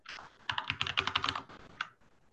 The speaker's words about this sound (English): I think somebody is typing in